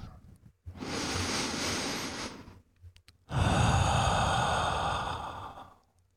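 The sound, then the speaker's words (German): A slow, deep breath taken during a guided relaxation: a long, breathy inhale of about two seconds, a short pause, then a longer, louder exhale that gradually fades away, heard alone. “Nimm einen tiefen Atemzug.”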